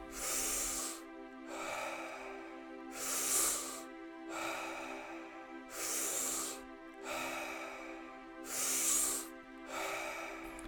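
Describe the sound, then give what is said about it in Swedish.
Deep, rhythmic breathing in and out during a guided breathing exercise: loud, airy inhales and exhales alternating in a steady, even cycle that repeats many times, with no talking. “In och ut. Tio kvar nu. Djupa andetag.”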